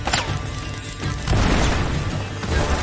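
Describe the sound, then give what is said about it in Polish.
Grenade explosion in a video game: a loud, broad blast bursts out about halfway through and stays heavy, rumbling over continuous busy game noise. “Ło, granat!”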